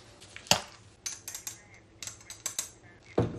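Light clinks and clatter of getting out a pestle and measuring out cloves for a seed cake: irregular sharp ticks and taps, with a louder knock near the start and another near the end.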